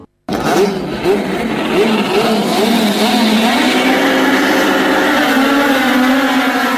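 Touring car racing engines rev loudly, sweeping up in pitch through several quick gear-change surges before settling into a sustained high, buzzing drone at full throttle.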